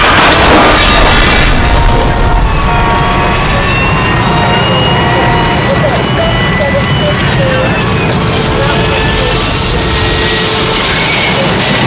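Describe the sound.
Audi R8 sports car cruising on the 110 freeway with the top down, a loud, unbroken roar of engine, road and wind noise that holds steady throughout.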